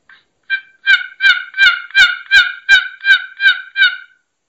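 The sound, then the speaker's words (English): Turkey hen loafing call worked on a box call: about ten raspy, even yelps at a steady, unhurried rhythm, fairly loud and alone. “Yep. Kind of it'll sound kind of like this on a box, just kind of.”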